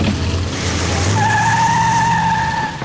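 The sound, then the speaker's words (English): Tires squeal as a car drives off, a low engine rumble carrying through while a sharp, sustained skid tone cuts in about midway and holds to the end. “Porter lies on the floor as they drive away.”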